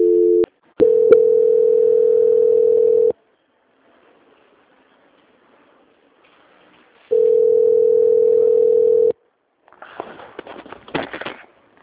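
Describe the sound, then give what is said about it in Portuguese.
A telephone line tone during a call transfer: a few sharp clicks, then a steady low tone for about two seconds, a pause, the same tone again for about two seconds, and then faint crackling and rustling. “peço que o senhor aguarde em linha que eu vou transferir o contato do senhor para o controle de qualidade.”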